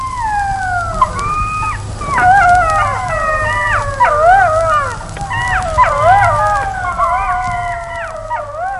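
Wolves howl as parents call their pups back to the den: several long, overlapping howls glide up and down in pitch, forming a steady, fairly loud chorus throughout with no talk.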